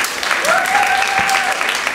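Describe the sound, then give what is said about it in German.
Audience applause greets a performer at a theatre show. The clapping is loud and steady, forming a thick unbroken wash that stays level throughout. “Einen Applaus bitte.”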